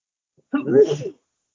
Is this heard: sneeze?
yes